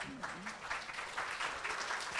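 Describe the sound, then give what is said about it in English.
Faint audience applause at a comedy-style show, a soft steady patter of many hands clapping, with a voice briefly over it at the start. “Got the same applause that him walking got.”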